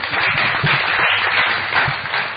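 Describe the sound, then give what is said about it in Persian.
An audience applauds in a continuous, fairly loud wash of clapping that stays steady from start to finish, with no speech over it. “مرسی یه دست براش بذارید”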